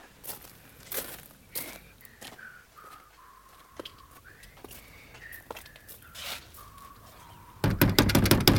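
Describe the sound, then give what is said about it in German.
Knocking on the front door of a pavilion: a rapid burst of loud, hard knocks at the end. Quieter scattered taps and shuffling come before it. “Ich klopfe an die Eingangstür.”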